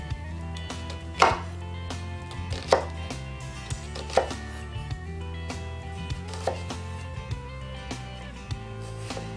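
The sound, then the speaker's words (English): Knife slicing through an onion on a cutting board for an oyster mignonette. Several crisp, separate chops land at uneven intervals over a steady low background hum. “now we're not gonna need too much onion here because we're only gonna do a little bit of a mignonette for six oysters. All right, a couple slices from the top.”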